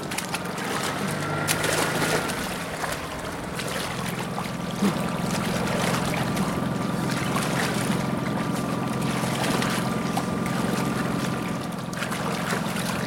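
A motorboat runs on water with its propeller turning, giving a steady, low engine drone that holds evenly throughout, with a constant wash of water noise over it.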